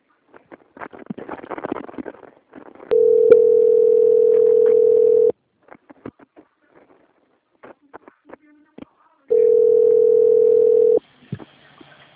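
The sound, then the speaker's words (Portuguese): Steady mid-pitched telephone tones sound while a bank call is transferred to a quality department. Two long unbroken tones are separated by a stretch of faint clicks and small noises, with scattered muffled sounds before the first tone. “eu vou transferir a sua ligação para o setor de qualidade”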